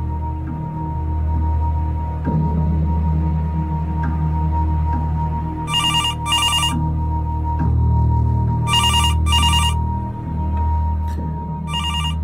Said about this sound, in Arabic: المفروض مش انا اللي ارد على التليفون في الفترة الاولانية